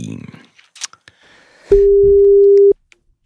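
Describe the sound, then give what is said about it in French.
A telephone line tone sounds as a number is dialed: a few faint clicks and small noises, then one steady, loud, mid-pitched beep lasting about a second before it cuts off. “je te laisse composer le numéro, nous allons voir ce que ça donne, c'est parti.”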